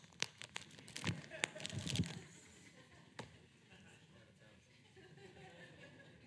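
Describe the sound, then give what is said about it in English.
Bible pages turn in church. Sharp crinkling flips and papery rustles cluster early, then give way to quieter, sparser rustling. “Love the sound of Bible pages turning in church. It's just a good sound, isn't it?”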